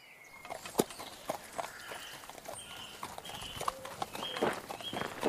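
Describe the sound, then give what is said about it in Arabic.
Clip-clopping hooves of a walking horse, a steady series of hollow knocks at a moderate level running throughout. “لا يملك من هذه الدنيا سوى ثياب بالية وحصان. وفي طريقه صادف الملك رجلا يسير على قدميه فأشفق عليه.”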